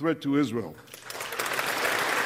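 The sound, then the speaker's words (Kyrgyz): US lawmakers applaud a speech by Netanyahu. A voice speaks briefly, then a dense round of clapping swells in and holds steady to the end. “Нетаньяхунун сөздөрүн америкалык мыйзам чыгаруучулардын айрымдары кол чаап кабыл алышса, башкалары, негизинен демократтар, эч кандай реакциясыз суз отурушту.”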